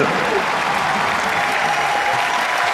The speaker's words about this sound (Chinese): 等什么呀？ 掌声啊！